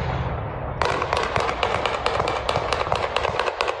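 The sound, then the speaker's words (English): AK-47 rifle gunfire from a played video: after a brief quieter lead-in, many sharp cracking shots follow in fast, uneven succession, loud and harsh throughout. “It sounds like an AK.”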